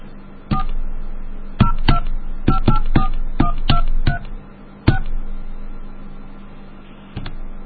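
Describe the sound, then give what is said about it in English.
Telephone keypad DTMF tones as a 1010732 access code, a 1 and a number are dialed: many short, bright two-tone beeps in an uneven rhythm with pauses between, over a faint steady line hum. “It's 1010732 and then 1 and any number. I'll just dial some random number.”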